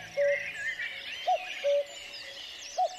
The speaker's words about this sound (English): If you hear a cuckoo calling and then you start to run away from it as quickly as you can, the number of times you hear the cuckoo calling before it fades into silence